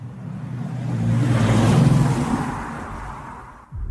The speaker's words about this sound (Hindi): लखनऊ की सड़कों पर एक कार रात के सन्नाटे को चीरती हुई आगे बढ़ रही थी।